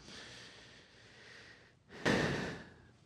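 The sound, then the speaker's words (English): A person draws one sharp, loud breath that rises suddenly out of softer breathy noise, then fades over about a second. “Take a breath. Let me take a breath.”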